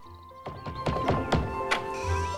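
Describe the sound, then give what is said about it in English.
A house door swinging open, heard as a quick run of hollow thunks and clunks with ringing tails, sitting over a steady low hum. “The door swings open.”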